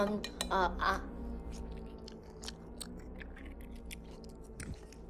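Pickles being chewed, with crunchy, wet bites and mouth noise in a dense stream of irregular crunches, loudest at the start and steadier afterward.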